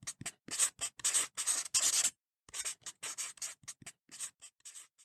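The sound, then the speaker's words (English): Writing on a scroll: many short, soft scratching and rubbing strokes in quick, irregular bursts, with a brief pause midway. “I shall write my thoughts on the scroll, and you must send it back to Father Timothy and the brothers.”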